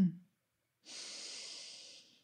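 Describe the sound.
A single slow, deep breath drawn during a guided meditation, a soft airy hiss lasting just over a second, heard quietly and alone.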